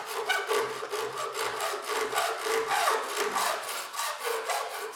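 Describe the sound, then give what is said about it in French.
Hand-sawing of PVC pipes that will become flutes: many fast, even back-and-forth rasping strokes in a steady rhythm, moderately loud, with no voices. “Pendant le stage, nous avons bricolé, scié les tuyaux en PVC qui sont devenus nos futures flûtes”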